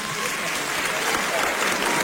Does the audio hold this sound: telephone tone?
no